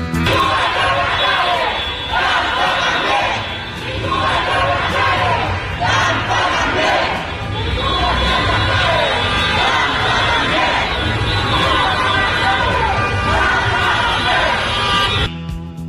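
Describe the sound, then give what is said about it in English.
A crowd of protesters in Cuba shouts and chants without pause, a loud, dense roar of many voices that holds steady through the whole stretch before cutting off abruptly at the end. “We are going to tell you all about what's happening today in Cuba. These protests exploding, continuing on now”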